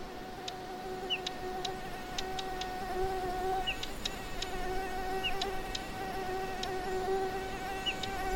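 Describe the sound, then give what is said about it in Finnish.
A mosquito whines in a thin, steady, high-pitched drone with buzzing overtones. It is quiet and continuous, with many faint ticks scattered through it. “Mikä eläin inisee näin? Kerro, jos tiedät. No tältä kuulostaa tietenkin hyttynen.”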